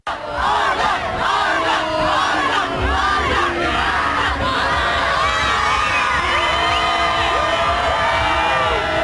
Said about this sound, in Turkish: İdman öncesi tribünler milli takıma uzun süre tezahüratta bulundu.